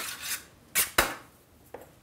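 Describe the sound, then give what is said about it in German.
Greasing a metal baking tray with fat before baking bread: a few faint, irregular brushing swishes and light scraping clicks. “Und wieder das berühmte Einfetten.”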